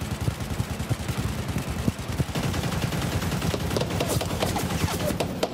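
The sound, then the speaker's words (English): Heavy gunfire as an army returns fire at a munitions depot after rebels breached its perimeter with an improvised explosive device: many loud shots in rapid, overlapping bursts, with booming low reports and sharp cracks continuing throughout. “The army is firing back.”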